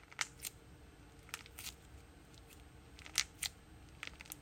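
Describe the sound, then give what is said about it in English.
Soft, crisp crackling squishes from a cute stress ball with little orange slices and clouds or flowers on top. The squishes come as short bursts, often in pairs, against near silence. “One of the reasons why I love these types of stress balls so much is because of the ASMR.”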